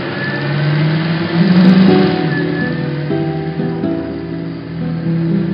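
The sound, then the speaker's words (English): A car's engine runs steadily while driving, a continuous mid-pitched hum that swells slightly near the middle and then settles, with no voices. “Now, let's go back in time as Rabbi Lieberman is driving home.”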